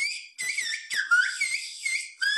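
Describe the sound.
Whistled Turkish speech: loud, piercing whistled tones that glide up and down in pitch, broken into several phrase-like segments with short gaps. No voices are heard.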